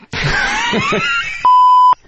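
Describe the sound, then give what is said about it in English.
Censor beep on live radio: a single steady, mid-pitched electronic tone lasting about half a second, cutting in right after a loud, strained voice. “Yeah, I mean, sometimes, the beeps match up. Sometimes they don't. That's all right. It's, that's live radio.”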